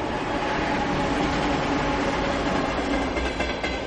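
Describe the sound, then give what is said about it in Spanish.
A train pulls away at night from a rural village, bound for Madrid: a steady, loud rail rumble with a clickety-clack of wheels that holds evenly throughout, with no voices. “En mitad de la noche del 19 de agosto de 1990, un tren se aleja de Puerto Urraco rumbo a Madrid.”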